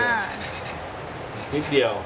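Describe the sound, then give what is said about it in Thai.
Hand sanding of softwood, just at a corner to cut a shoulder: a soft, steady rasping rub that grows scratchier and louder for a couple of strokes near the end. “ที่บอกนี่คือเตือนเว้ย ความหนาเปลี่ยนเลยนะ ใช่บางทีขัดเพลินบางใช่ไหม บาง แล้วล็อกไม่อยู่ใช ่ขัดแค่ นิดเดียว”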